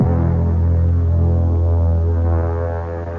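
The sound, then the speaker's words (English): A razor shaves off a mustache with a steady, low buzzing drone rich in overtones. It runs unbroken on its own and dips slightly at the end. “Are you ready, Your Majesty? Oh, I see you're still shaving.”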